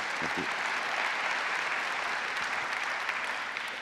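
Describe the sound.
Audience applause welcoming a pastor as guest speaker, a dense, steady wash of clapping that holds at an even level throughout, with no talk over it.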